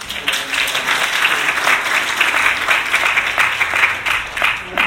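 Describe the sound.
Applause from an audience at a church gathering after a prayer, as people thank a woman who has just spoken; dense, steady clapping fills the whole stretch without pause, loud and even with small swells.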